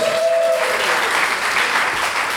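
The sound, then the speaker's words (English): Crowd applause for an audience member called up to the stage, a loud, sustained patter of many hands, with a brief vocal tone at the start. “Everybody give him some right applause.”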